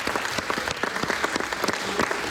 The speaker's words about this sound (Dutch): Ik stel voor dat jullie allemaal een hartelijk applaus geven voor de mensen van Teenskip, de experts, de provincie.